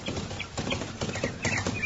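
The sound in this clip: Horse hooves clip-clopping as a team of horses is reined to a stop on a road, a faint, uneven patter of hoofbeats.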